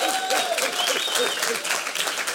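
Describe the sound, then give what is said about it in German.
Audience clapping for a local music band, steady and dense applause that keeps up throughout with the spread-out texture of many hands. “Dieser Zusammenhalt, ja, da wird geklatscht.”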